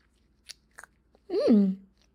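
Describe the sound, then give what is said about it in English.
Someone chews a mouthful of sugar: a few brief, crisp crunches, then a short hummed vocal sound. “So yummy. What? You have to sample the sugar first to make sure it didn't go bad.”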